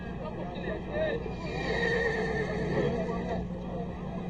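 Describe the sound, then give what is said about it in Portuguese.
A horse whinnies in a drawn-out neigh that blends with overlapping voices and background chatter, steady and moderately loud throughout. “O cavalo do Mark parece um suicida.”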